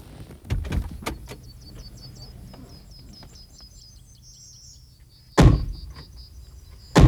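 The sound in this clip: Car doors as people get out of a car: a few clicks and thumps near the start, a quiet stretch, then two sharp, loud door slams near the end.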